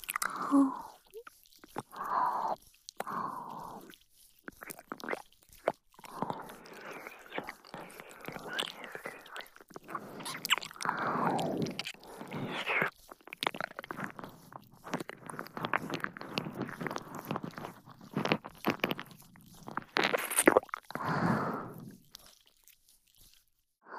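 Chewing of soft, jiggly meat: many repeated wet, squishy bites and smacks at a low level, with irregular pauses between bursts of chewing.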